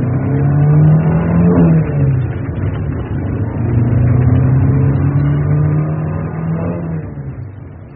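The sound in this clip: A car drives off with its engine revving hard as it pulls away, the motor note surging upward in a couple of swells and staying loud and continuous throughout.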